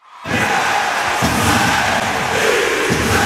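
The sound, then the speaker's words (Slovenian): Ice hockey crowd cheering in a home arena: a loud, continuous roar of many voices swells up after a brief silence and holds steady to the end, with shouts and yells rising out of the mass. “Ste pogrešali ta zvok? Hokej se vrača v Podmežaklo.”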